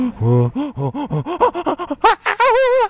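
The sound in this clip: A voice imitates a chimpanzee pant hoot: many rhythmic voiced pants that quicken and climb steadily in pitch, ending in a few loud, high, strained hoots.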